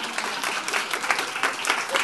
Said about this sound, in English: My wife, Kristen, you can clap for her.